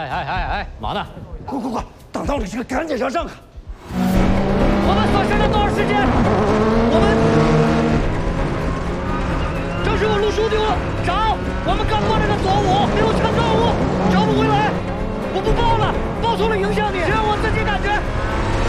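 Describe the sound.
Rally car engine roaring hard during a race stage, a loud, steady, high-revving drone with shifting pitch that runs throughout, with excited voices over it.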